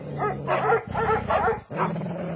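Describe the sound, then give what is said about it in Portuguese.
Dogs barking, a hunter's pack of four appearing suddenly: a few bursts of rapid, yelping barks running almost continuously, loud and without talk. “Justamente neste momento, apareceu um caçador com quatro cachorros.”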